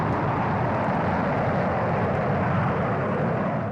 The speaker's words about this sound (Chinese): 在刚刚建成不久的50号发射阵地，一枚东风2号甲导弹点火起飞。